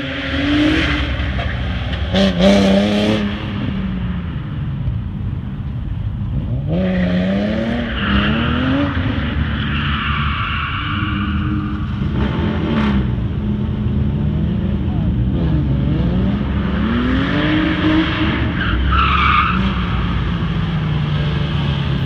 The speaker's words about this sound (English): he actually recorded a pretty heavily modified Nissan 370Z doing an early lap on the L track